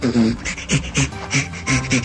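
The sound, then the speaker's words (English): A chimpanzee laughing while being tickled: many short, breathy, rhythmic pants in quick succession, each a rasping huff with voiced tones mixed in, loud and close throughout. “That's the sound of a chimp being tickled and laughing.”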